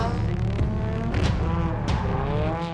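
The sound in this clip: A race car engine roars under early throttle during a qualifying run. The loud, steady roar is rich in harmonics and holds throughout, with a slight wavering in pitch.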